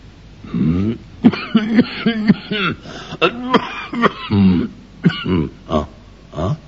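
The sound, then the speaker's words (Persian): A frightened rich man in a narrated children's story coughs and clears his throat. The sounds form a rough run of many short bursts, with grunting vocal tones mixed in. “ولی بعد سرفه‌ای کرد و گفت:”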